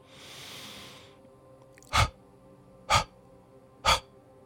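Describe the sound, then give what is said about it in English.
A breathing exercise: one long, steady inhalation, then three short, sharp exhaling spurts at even intervals. No voices are heard. “Breathe in a long breath and then out three short spurts.”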